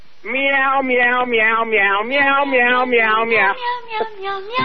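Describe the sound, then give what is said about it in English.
Melodic meowing from a Meow Mix cat food commercial jingle: many rhythmic, sung-sounding meows follow one another in a steady tune, loud and continuous. “I want to hear that Meow Mix commercial going right now, because that's who he is.”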